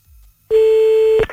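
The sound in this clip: Single steady telephone tone heard while calling back, a clear mid-pitched beep lasting under a second after a faint low rumble, then cut off abruptly.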